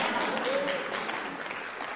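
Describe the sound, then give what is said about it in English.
Audience clapping at a sermon, a dense and steady wash of many hands that holds fairly loud and even for the full two seconds without a break. “Yeah, you should clap. That's good stuff.”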